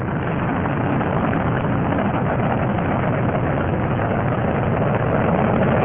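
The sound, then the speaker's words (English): Rocket engines on a Space Shuttle, with its three liquid-fuel main engines, roar during ascent to orbit. The roar is a steady, dense, unbroken rumble that stays loud and even throughout, with no voices. “The shuttle heads down wings level for the 8.5-minute ride to orbit.”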